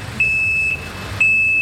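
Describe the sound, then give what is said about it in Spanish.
A truck's reversing alarm sounds while it parks outside: two steady, high-pitched electronic beeps, the second running to the end, over a low engine rumble. “¡Ah, un camión! Que está estacionándose allá afuera.”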